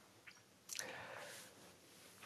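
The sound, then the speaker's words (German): A sip of tea, heard as a quiet, wet slurp followed by a faint lingering airy tail. “Erstmal ein Schluck Tee. Ist auch immer gut.”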